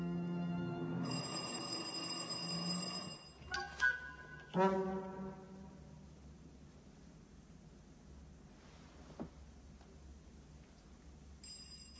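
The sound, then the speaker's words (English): A doorbell rings in a quiet house, sounding as a few bright chime tones that decay after a sustained tonal passage, then fade into a low hum. “That was the doorbell”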